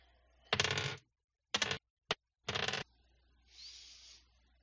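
Dice re-rolled during a tabletop role-playing game, probably ten-sided dice: a few short, bright clattering bursts separated by silences, followed by a softer, higher rustling scrape.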